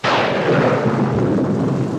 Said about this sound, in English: A thundery, stormy kind of drizzle.